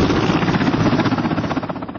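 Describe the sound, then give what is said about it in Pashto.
An Afghan National Army helicopter arriving at an army corps headquarters in Helmand: a loud, continuous engine roar with a fast, rhythmic rotor throb pulsing throughout, with no voices. “د ملي اردو په هلیکوپټر کې د 215 میوند کل اردو قرارګاه ته راغله.”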